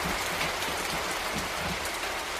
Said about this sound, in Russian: Пошел дождь, он шел все сильней и, наконец, хлынул, как из ведра.